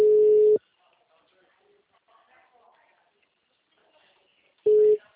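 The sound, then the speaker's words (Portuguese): Ringback tone of an outgoing mobile phone call: two bursts of a steady, mid-pitched tone, separated by about four seconds of near-quiet with faint background murmur. “Eu tô fazendo ligação, assim, ó, normal, chamando”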